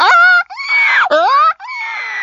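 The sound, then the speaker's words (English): A voice imitates the mating call of a female monkey in heat from the jungles of the Philippines: four loud, wailing, moaning cries with sliding pitch, separated by brief gaps. “But take a forker monkey from the jungles of the Philippines. When she's on heat, her behind sticks up and glows bright red and she makes a sound a bit like this.”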